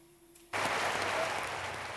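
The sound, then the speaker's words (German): Standing ovation at a film festival gala honoring a veteran actor: after a quiet moment, applause bursts in abruptly and continues as dense, sustained clapping. “Stehender Applaus für den Star des heutigen Abends, Robert De Niro.”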